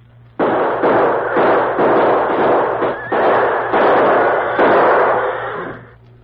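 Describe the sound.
Gunfire crackles through an ambush shootout between lawmen and outlaws. Many sharp, loud shots follow in a rapid, uneven volley and almost merge into continuous noise, then fade at the end.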